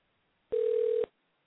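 A single steady telephone tone sounds alone for about half a second on an outgoing call, then cuts off.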